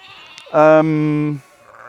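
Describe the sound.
A sheep gives a single loud bleat lasting just under a second. The cry is steady and nasal, with strong harmonics, and it cuts off abruptly against faint background noise.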